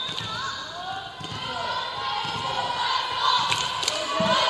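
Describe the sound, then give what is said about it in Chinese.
Dull ball thumps from a volleyball serve during a match, faint beneath steady crowd noise and a commentator talking. “现在发球的是18号”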